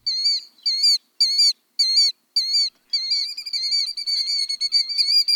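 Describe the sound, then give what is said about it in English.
Shrill, high whistled calls of a killdeer, a large plover of open areas: five separate loud notes with brief gaps, then a rapid unbroken run of repeated piping calls, with nothing else audible. “Killdeer, a big plover of open areas, start arriving in early March, and they don't sneak in quietly.”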